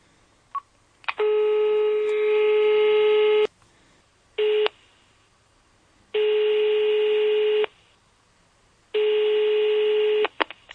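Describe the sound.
A telephone call being dialed: a couple of brief clicks, then a steady electronic ringback tone repeating in long, even bursts separated by silent gaps, loud and clear.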